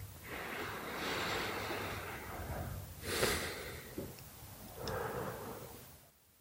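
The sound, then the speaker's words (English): Slow, deep breaths drawn in through the nose during a meditation, faint and airy, with a few soft inhales and exhales and a short snort-like sniff midway. “Take a deep breath in through your nose.”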